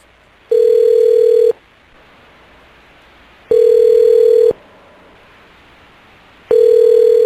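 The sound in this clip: An unanswered telephone ringing: a steady mid-pitched ring tone sounds in one-second bursts separated by two-second pauses, loud and clear. Two full rings are heard before a third is cut off.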